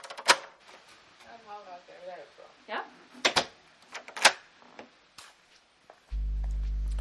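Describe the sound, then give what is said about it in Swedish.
A door is locked with an electronic lock, giving a series of sharp, irregular mechanical clicks and clacks with faint voice sounds between them. A steady low hum begins near the end. “höra hur det har gått med det här elektroniska låset? Ja, gärna, gärna. Så, då får du låsa efter mig. Det ska jag göra.”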